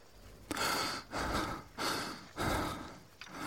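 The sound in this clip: An exhausted climber heading up a mountain toward a summit breathes heavily. Several loud, rough breaths follow one another with short pauses between them in an uneven, labored rhythm. No talk is heard.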